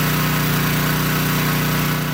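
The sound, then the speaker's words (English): Motor-driven pumps suck water out of a flooded basement at a home in Minitonas, Manitoba, after heavy rain. The engine hum is steady and loud, with a buzzing pulse and no voices. “Pumps at Connie and Lori Lausman's place sucking water out of their basements.”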